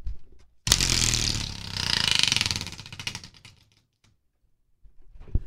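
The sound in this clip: A quarterback wheel of destiny spinning, its pointer rattling off rapid clicks that blur into a buzzing clatter, then thin into slower, separate ticks before the wheel stops and falls quiet.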